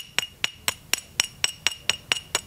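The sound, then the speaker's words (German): Two stoneware pottery shards are knocked together ten times in a quick, even rhythm. Each strike is a bright, sharp clink with a short ringing tone. “Auch der Klang gibt Auskunft darüber, aus welchem Material eine Scherbe besteht. Ich schlage die beiden mal vorsichtig aufeinander.”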